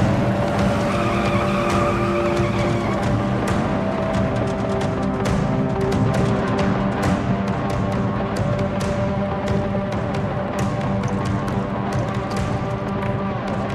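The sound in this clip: Cars speeding off in a chase, with tires skidding and squealing over a dense, continuous engine roar, punctuated by many sharp screeches throughout.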